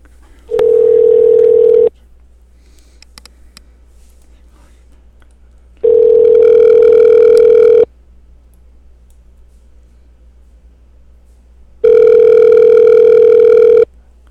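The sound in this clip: A telephone ringback tone plays on an outgoing call back to a mobile number: three loud, steady buzzing rings, each about one and a half to two seconds long, separated by roughly four-second gaps of near silence.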